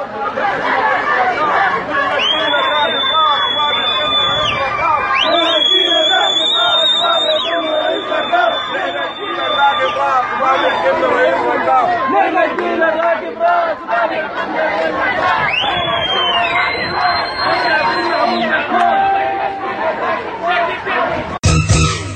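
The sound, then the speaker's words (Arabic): Protesting workers in Khartoum chant slogans as a loud crowd, their massed voices forming a continuous, dense roar of shouting and chatter that barely dips across the whole stretch. “وردد العاملون هتافات: 12 مارس مظاهرات مطار مظاهري”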